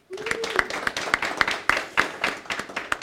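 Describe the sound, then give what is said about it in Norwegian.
Scattered applause from an audience welcoming a panel guest, the managing director of IBM Norway. Distinct individual hand claps land at an uneven rhythm, moderately loud and fairly sparse, without a dense roar. “Applaus.”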